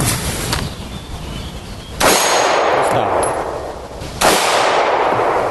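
Two sharp, loud pistol shots at a shooting range, spaced about two seconds apart, each a sudden bang with a ringing, decaying tail over a steady background hiss.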